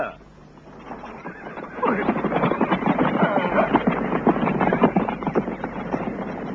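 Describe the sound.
A horse whinnies in a long, loud, quavering neigh that runs for several seconds over a low rumble of wind noise.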